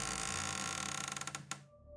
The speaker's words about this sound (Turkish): Kapıya doğru yürüyorsunuz. Kapı açılıyor.